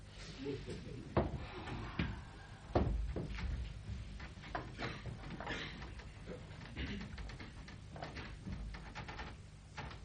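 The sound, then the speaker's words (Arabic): A window is opened on stage during a theatre play: a few sharp knocks and thumps in the first seconds, then lighter clicks and rustles over a steady background, with voices in between. “إذن فلا جدوى من فتح النافذة؟ لا. إذن افتح.”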